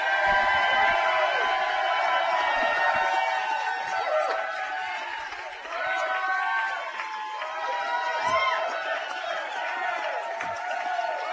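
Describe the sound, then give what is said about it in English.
A crowd gives a loud, sustained ovation for Kansas City Chiefs fullback Anthony Sherman, number 42, a Pro Bowl player, with voices cheering and chanting over a continuous roar that dips briefly midway before rising again. “That is the biggest ovation of any player we've had this year, including Pat Mahomes, I think.”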